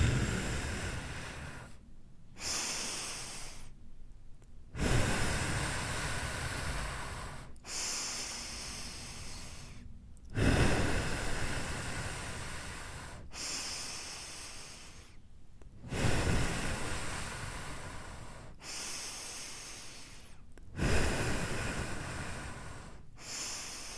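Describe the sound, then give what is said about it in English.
Slow, deep breathing during a guided breathing exercise for stress relief, with a series of long, soft inhales and exhales separated by brief pauses, airy and hissing, with no talk. “Okay, that was 6 deep breaths.”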